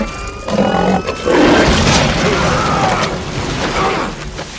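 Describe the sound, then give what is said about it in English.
A sci-fi weapon powers up in an alien-hunting film scene with a loud, sustained roaring whir that carries thin whining tones and rough, growling texture after a brief opening burst. “We hear the sound of that weapon starting up.”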